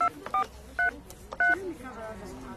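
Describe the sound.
Touch-tone telephone dialing: a few short, bright two-note beeps sound as a number is entered to test whether it is real, separated by gaps over a faint background hiss.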